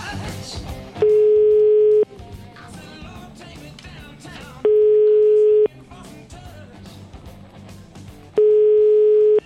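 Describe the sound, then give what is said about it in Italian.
Steady telephone ringback tone while a call is being placed: three long, even, mid-pitched beeps of about a second each, spaced at regular intervals over a continuous background of other sound. “Cerchiamo di chiamare Vittorio Sgarbi per il solito appuntamento quotidiano sulle sue condizioni di salute.”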